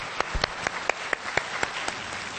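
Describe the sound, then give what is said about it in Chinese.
Audience applause welcomes a speaker at a forum on saving the earth: dense, steady clapping from many hands, with scattered sharper individual claps standing out, alone without speech. “接下来，让我们以热烈的掌声欢迎我们期待已久的主讲人”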